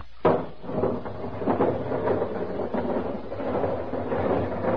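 Airlock opening: a sudden thud starts a loud, sustained grinding rumble that runs evenly for several seconds.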